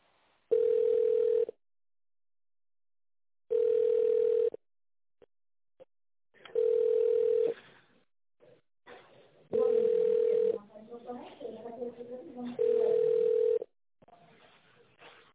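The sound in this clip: Telephone ringback tone while a call is transferred to another department: five evenly spaced, steady mid-pitched tone bursts, each about a second long, with pauses between them and a person talking during the later ones.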